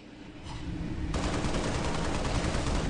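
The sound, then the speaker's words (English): Rapid, dense gunfire from a video game, a continuous crackling burst that grows louder about a second in and keeps going without pause, with no talking. “There's like some of the game audio there. I like the sound of the gun. They changed it.”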